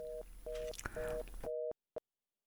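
Telephone busy tone after a call is cut off: four short, evenly spaced beeps over line hiss, then the line falls silent apart from a single brief click.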